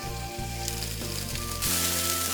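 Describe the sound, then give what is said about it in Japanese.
Octopus and bite-sized zucchini pieces fry in olive oil in a hot pan, giving a steady, dense sizzle that carries on throughout and grows louder and fuller toward the end. “温めてオリーブオイル入れますね。今回はタコを使います。タコ炒めていきます。でここにカットし一口大にカットしたズッキーニも入れていきます。”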